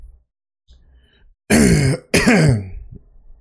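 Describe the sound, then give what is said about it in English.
Two loud, voiced cough bursts in quick succession, rough and throaty like heavy throat clearing, each with a wavering tone, after a short stretch of near silence. “that was an actual cough.”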